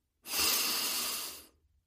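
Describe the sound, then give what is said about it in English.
A single deep breath, a soft, airy rush lasting just over a second that swells quickly and then tapers off into silence, with no voices. “Now, take a deep breath.”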